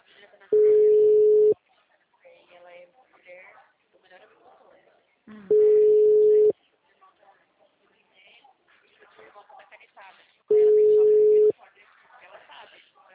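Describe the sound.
Telephone ringback tone heard while calling someone: three steady, mid-pitched one-second beeps spaced about five seconds apart, with a person talking in Portuguese in the gaps between them.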